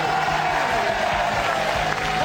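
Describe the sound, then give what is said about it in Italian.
Crowd applause greets Juventus coach Marcello Lippi, a steady, dense patter of clapping mixed with scattered cheers, holding at an even level throughout. “il grande allenatore della Juve, facciamogli un bel applauso, Marcello Lippi.”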